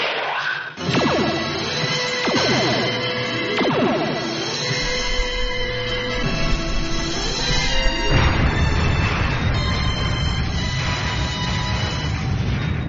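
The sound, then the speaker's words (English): Starship phasers firing in bursts: repeated descending electronic sweeps cut through a dense, loud, continuous roar that holds without a break, with no voices. “Now, fire blind, lay down a pattern. Diver's pattern. All phasers fire. Phaser one? Fire.”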